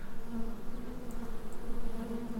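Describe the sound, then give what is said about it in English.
Angry bees buzzing in a steady, continuous drone that wavers slightly in loudness throughout, with no talking. “I've dealt with bees before. Fuck off. That does sound like some angry buzzing.”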